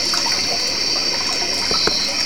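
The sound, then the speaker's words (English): Running water from a relaxation sound app plays as a continuous, even rushing hiss with no talk. “Selected. Running water.”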